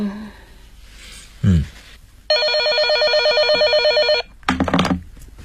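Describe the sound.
A telephone rings in one loud, continuous warbling trill lasting about two seconds, framed by brief, quieter sounds just before and after.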